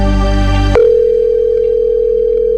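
A telephone line tone sounds during a radio call-in contest: a loud, buzzy ringing tone cuts off abruptly and gives way to a single steady, pure tone that holds unbroken to the end.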